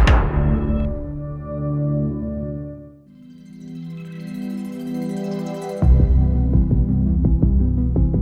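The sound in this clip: Netflix's ta-dum logo sound: a deep booming double hit with a resonant low hum that slowly fades under a rising shimmering swell, then a pulsing synth arpeggio from a TV series' theme kicks in.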